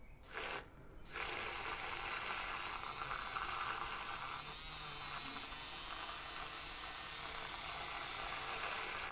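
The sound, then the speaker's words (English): Electric milk frother whisking milk into foam, giving a loud, steady motorized whir that holds an even pitch for several seconds after a brief stutter at the start, with no voices. “we're gonna just mix it with the milk frother. Perfect. Now, I want to have a little bit of more foam, so I'm gonna mix it a little bit longer.”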